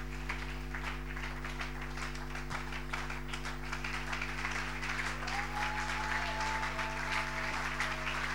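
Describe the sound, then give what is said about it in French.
A church audience applauding to acclaim God, a steady, faint patter of many hands clapping that runs throughout over a constant low electrical hum. “Nous nous levons pour acclamer le Seigneur notre Dieu.”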